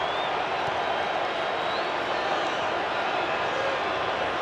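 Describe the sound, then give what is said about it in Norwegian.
Displeased football stadium crowd at a match involving Congo, a steady, dense roar of many voices that holds at an even level throughout without clear peaks or breaks. “Publikum ikke fornøyd, og her renner sanda ut i timeglasset for Kongo.”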